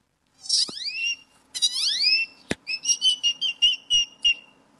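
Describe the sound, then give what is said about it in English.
A person's voice imitates a great-tailed grackle call: two loud, rising, squealing whistle sweeps, a sharp click, then a quick run of high, chattering whistled notes. “When I was 4 years old at the zoo, I started mimicking this great-toed grackle that was bothering my sister. And what does the great-toed grackle sound like?”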